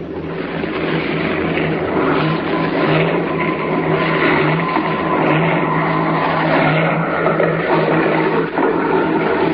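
A small propeller airplane comes down to land beside railway tracks, its engine giving a loud, steady, droning roar that holds evenly throughout with no clear rise or fall.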